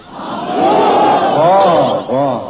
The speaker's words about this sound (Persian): همه با من بگیم وقتی من گفتم آخجون همه بگین آخجون